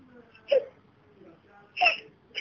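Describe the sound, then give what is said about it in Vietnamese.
A woman cries, with muffled sobbing between two louder, wavering wails and the start of a third at the very end. “thôi chị đừng khóc nữa, chị đừng khóc nữa. Dạ, chị đừng khóc nữa.”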